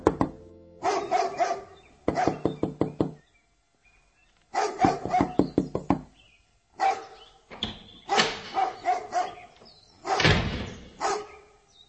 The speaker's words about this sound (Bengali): এমন সময় দরজা নক করলো কে যেন।